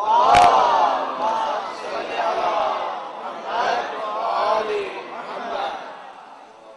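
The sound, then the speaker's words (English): A crowd at a conference chants a loud salawat in unison to welcome a scholar, opening with a sharp burst and then several swelling phrases of massed voices that fade toward the end. “So please welcome the Honorable Scholar Sayyid Tijani Samawi with a loud salawat.”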